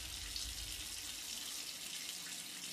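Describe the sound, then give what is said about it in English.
A shower runs with a steady, faint hiss of falling water spraying over someone's head, even and unbroken throughout, with no voices. “upstairs, Lauren's head is immersed under the shower stream.”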